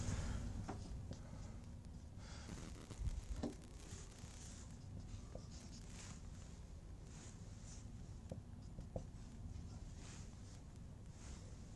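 Faint scratching and light tapping of someone writing out an equation during a lecture, with soft irregular strokes and occasional small knocks under a steady background hiss.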